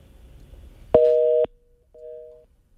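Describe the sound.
A telephone busy signal sounds after a caller drops off the line: two clear tone bursts, the first loud and the second quieter, with no talk over them.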